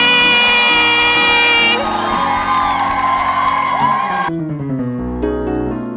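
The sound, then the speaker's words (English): Church audience cheering loudly to welcome the pastor, bright whoops and shouts over sustained keyboard chords, the crowd noise dropping away before the end while the music continues. “So I think you should rise to your feet. Make a loud noise as we welcome our pastor, Bishop Richard Aye.”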